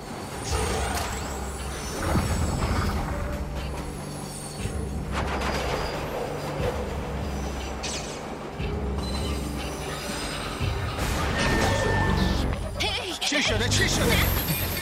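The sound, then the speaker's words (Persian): A train's carriages come apart: a continuous loud rumble of rolling railcars with high squealing wheels and scattered mechanical clanks and hisses, while people talk over the noise. “لوکوموتیو ران نباید اینجا می بود؟ آره نمیدونم کجاست.”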